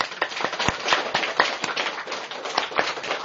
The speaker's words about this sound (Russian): Давайте вот сделаем вот так вот руки и похлопаем.